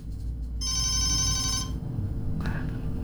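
A telephone bell rings with an incoming call, one bright, steady burst of ringing just over a second long that stands alone above a low background hum, with no talk.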